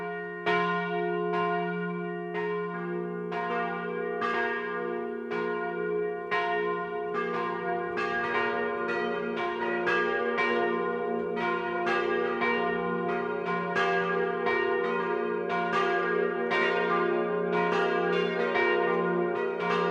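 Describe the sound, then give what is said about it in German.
Church bells ring the midday chime at a Catholic parish church in a Swabian village, several bells sounding together in a steady, overlapping peal of many strikes, resonant and sustained, with no talk. “Es ist 12 Uhr. Das Mittagsläuten kommt heute von der katholischen Pfarrkirche St. Maria Magdalena im schwäbischen Schildberg.”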